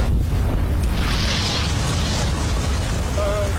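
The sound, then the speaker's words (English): A vintage Bentley bursts into flames on a motorway flyover. The fire makes a loud, steady, wind-like roar that swells into a whoosh partway through and then keeps rushing without a break. “Officer, have you never seen an example of spontaneous automotive combustion?”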